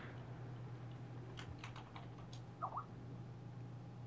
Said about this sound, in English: Here, I'll type what I thought it was in the chat.